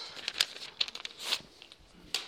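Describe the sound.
Faint crinkles and rustles from a sheet of paper being handled, a few short, dry, papery bursts scattered across about two seconds.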